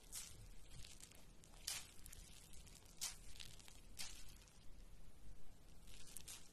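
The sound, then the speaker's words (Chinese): A cotton pad wipes lemon-scented massage cream off the skin. It makes a series of faint, scratchy brushing strokes that come in short, uneven bursts over a soft background. “是用化妆棉擦掉的。”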